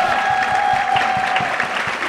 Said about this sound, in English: Please put your hands together for Jenny.